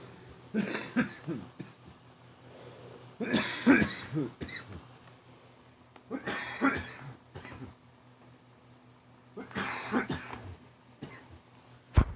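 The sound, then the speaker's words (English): Harsh coughing fits from someone who has just smoked a joint: several spread-out clusters of rough coughs and throat clearing, fairly quiet, with no talking between them. “Sorry about the coughing.”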